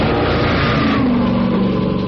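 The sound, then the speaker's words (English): An Alfa Romeo Berlina family sedan's engine revs in a loud, continuous mid-pitched drone that holds steady throughout, with no voices. “The Alfa Romeo Berlina. Now the family man can drive a legend instead of just a car for under $6,000.”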